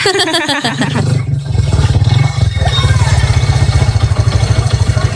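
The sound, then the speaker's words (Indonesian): A motorcycle passes by on a street. Its rough engine swells into a loud, rhythmically pulsing low rumble that holds strong to the end. “Eh, hati-hati tuh, keserempet. Ada motor lewat.”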